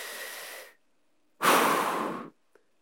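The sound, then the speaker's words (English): Deep breaths, heard as two long airy rushes of air separated by a short silence, the second one louder and fuller. “Let's do it two more times. Take a breath right now.”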